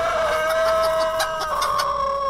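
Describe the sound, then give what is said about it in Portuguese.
A rooster crows in a farmyard, one loud, sustained, strongly tonal call holding a steady pitch for over two seconds with no voices over it. “É o galo Topete. Canta aí, ô Topetão.”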